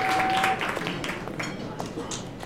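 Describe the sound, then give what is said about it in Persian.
Audience applause for a popular singer at a concert evening: scattered sharp claps form a moderate patter that eases slightly after the first half second, with talk mixed in. “خواننده محبوب مردمی، استاد عباس قادری بزنیم رو دست قشنگه رو.”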